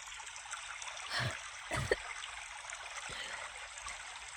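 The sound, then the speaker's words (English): Rushing water from a stream or river, a steady low-level wash that runs the whole clip, broken by a couple of brief louder splashes near the middle. “Is that a waterfall?”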